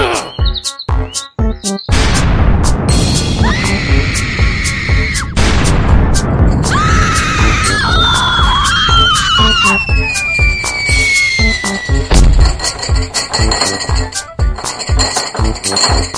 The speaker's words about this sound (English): Pull pin. Throw grenade. Pull pin two. Throw grenade.